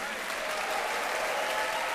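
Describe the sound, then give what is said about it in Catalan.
Applause from a concert audience in New York for a jazz quartet with piano, bass and drums, a dense, even clatter of many clapping hands that holds steady throughout. “Benjamin compartint els aplaudiments amb els seus companys de banda”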